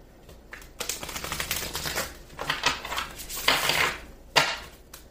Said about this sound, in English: That's the split, when I split the deck. Now, let's see what card comes out.